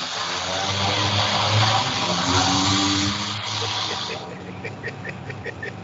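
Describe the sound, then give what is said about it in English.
Cars revving hard in a drag race next to a house, a loud sustained engine roar that eases off partway through while someone talks over it. “Okay, then there's a reality where there's a drag race happening next to one of our houses.”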